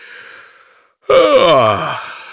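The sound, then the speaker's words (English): A person yawns late at night: a faint breathy intake, then one loud, drawn-out voiced yawn that slides steadily downward in pitch over about a second before trailing off. “He yawned. It's late.”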